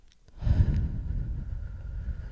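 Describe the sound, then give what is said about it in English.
A deep breath, heard mostly as one long, soft exhale that trails off gradually, with no talking. “just listen to my voice and breathe in. Hold it. Hold it. And breathe out.”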